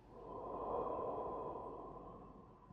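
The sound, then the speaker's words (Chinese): A slow, deep breath during a guided breathing exercise: a single soft, steady rush of air that is quiet throughout. “我们把气吐光，深深吸一口气，慢慢的吐，”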